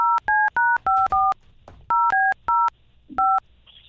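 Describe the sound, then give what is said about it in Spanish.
Telephone keypad tones as a number is dialed: crisp, evenly pitched beeps in a rapid first run, a short pause, a few more, then one final tone after a longer gap, with no talk. “Él te va a marcar.”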